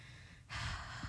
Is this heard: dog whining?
no